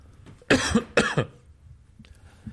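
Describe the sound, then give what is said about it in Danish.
Two harsh, loud coughs come in quick succession, each a short burst, and are followed by near silence. “jeg vil gerne have, at du klipper alle de her host ud. I hvert fald min host, ikke?”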